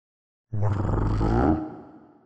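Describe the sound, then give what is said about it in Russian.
A crouching beast growls with its ears flattened. One deep, rough growl starts abruptly, holds for about a second, then trails off, heard alone without talk. “Прорычал Теодрир, пригнувшись и прижав уши.”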